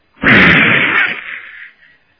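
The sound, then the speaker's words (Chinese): A pistol is fired with a loud, sharp blast that rings out in a drawn-out, decaying tail, followed by a faint pop near the end. “伸手他拔出手枪来，啪啪，”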